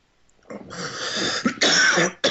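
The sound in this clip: Harsh coughing and throat clearing from a person with something caught in the throat: a few rough, loud, breathy bursts, one long rasping stretch followed by shorter hacks, with no talking over them.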